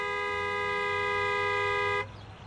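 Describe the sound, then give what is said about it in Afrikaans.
A car horn honks at a petrol station in one loud, steady, unbroken blast of about two seconds, then cuts off abruptly, leaving faint background noise. “Ek haat dit mos as mense vir my toeter.”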